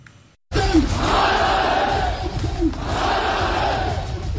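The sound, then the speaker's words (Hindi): A protest crowd chants slogans in the streets of Rawalakot in Pakistan-administered Kashmir: a brief quiet opening gives way to loud, massed shouting voices that stay strong and continuous to the end. “सुनिए इन नारों को, ये नारे किसी आम प्रदर्शन के नहीं हैं”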